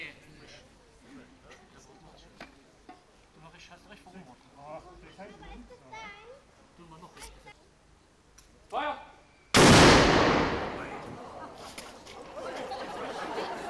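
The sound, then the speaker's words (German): A single loud gunshot blast from a ceremonial salute in front of Wolkenstein castle after a flag consecration. It bursts out sharply and then fades in a long ringing tail, after a stretch of crowd chatter. “Nach der Fahnenweihe und der Übergabe gab es im Anschluss noch ein Schießen vor dem Wolkensteiner Schloss.”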